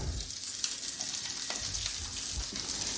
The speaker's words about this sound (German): Und schmeißen die hier mal ins Öl. Bisschen Öl noch dazu.